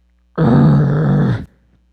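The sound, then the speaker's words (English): A deep, menacing demonic growl rumbles out, one sustained guttural snarl that stays loud and even for just over a second before cutting off, alone. “what you're hearing right now is because you're overstepping territory, and the growl of Satan is just,”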